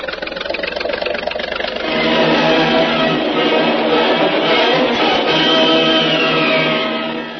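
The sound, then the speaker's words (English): Steady engine drone of a motor launch moving through a dark cave, a mid-pitched continuous throb that swells louder after about two seconds and then holds evenly to the end. “Cautiously, the motor launch, piloted by Jungle Jim, feels its way through the dark, treacherous cave toward the sunlit entrance.”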